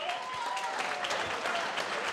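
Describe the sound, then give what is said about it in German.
Applause for a festival organiser, a brief, even burst of crowd clapping at moderate level that keeps a steady texture from start to finish. “Einen riesengroßen Applaus für Dieter Horvath, meine Damen und Herren.”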